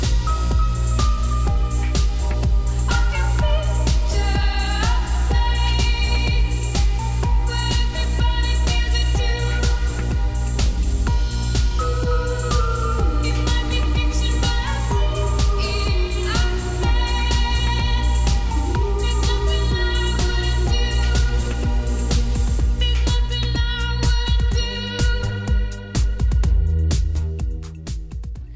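A new synth-driven pop song with a female singer plays continuously, carried by a deep steady bass pulse and layered melodic lines, loud throughout before thinning out briefly near the end.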